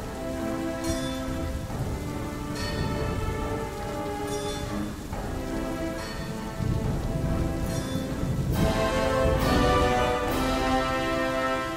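Heavy rain falls steadily, with low rolling thunder rumbling beneath the dense patter of drops; the downpour grows slightly louder toward the end.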